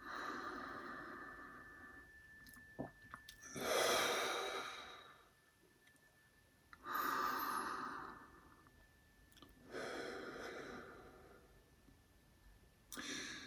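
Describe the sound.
One long, slow exhale, then a return to normal breathing as a few softer breaths come at a steady, unhurried pace. All of it is quiet and breathy, with no talking.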